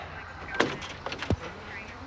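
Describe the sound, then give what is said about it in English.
A driver steps out of a car: a sharp click, then a deeper clunk of the car door, with small rattles and faint jingling between them. “I'm gonna need you to step out of the vehicle.”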